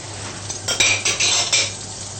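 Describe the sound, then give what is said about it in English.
A utensil scraping and tapping in a frying pan while about a tablespoon of margarine melts, giving a few light metallic clinks and scrapes over a steady low background hiss, with no voices. “I'm going to use some of the margarine, approximately 1 tablespoon into the frying pan.”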